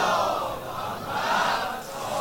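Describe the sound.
A crowd at a celebratory gathering recites salawat in unison, a steady wash of many voices that swells, dips briefly, then rises again.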